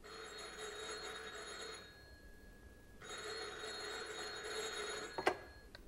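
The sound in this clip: Telephone ringing: two long electronic rings separated by a short silent gap, followed by a brief sharp click. No voices are heard.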